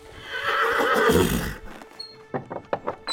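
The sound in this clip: A saddled horse gives a loud, drawn-out whinny for about a second and a half as its rider mounts, followed by a few short, sharp clops.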